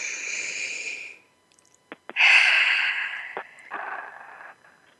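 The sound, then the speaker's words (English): A deep breath taken slowly: a long, soft inhale, then a few faint clicks and a drawn-out breath out that trails into a quieter second exhale, heard alone without talk. “So let's go ahead and take a moment to take a deep breath together.”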